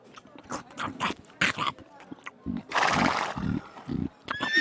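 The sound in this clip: A horse neighing and snorting as it is given fresh hay, a mix of throaty, voice-like calls, a harsh noisy blast in the middle and a high whinny rising at the end.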